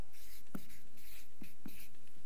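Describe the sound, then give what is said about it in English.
Circles drawn by hand make a faint, soft scratching of strokes with a few brief light taps. The sound stays steady and low throughout, with no talking. “In fact, I'll just draw these circles.”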